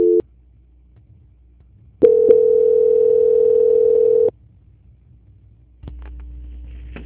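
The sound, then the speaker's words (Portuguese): Telephone tones while a call is being transferred: a brief beep, then a long, steady mid-pitched tone of about two seconds, and after a pause a fainter continuous tone that runs to the end. “enquanto eu transfiro a ligação. Transferência.”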